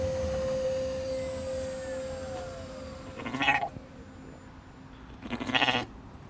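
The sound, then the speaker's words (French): Goats bleat on a dairy farm in Baden, southern Germany: two loud, nasal, quavering bleats break out a couple of seconds apart after a quieter stretch with a steady tonal hum. “Ah, les petites biquettes, elles font un peu de bruit.”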